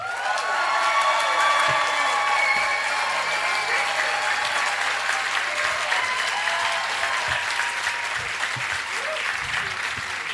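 A debate audience applauds and cheers together, dense steady clapping carried along with whoops and shouts, loud from start to finish.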